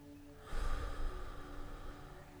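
A slow, airy exhale during a breathing exercise: one long, steady breath out, soft and breathy, rising quickly and then sustained until it gradually trails off, with no talking.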